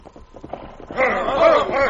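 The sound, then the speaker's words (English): Hooves of three riders' horses approaching in an old western drama: a soft, rhythmic clip-clop that swells into a louder, fuller stretch of hoofbeats. “Look, there comes three men on horses.”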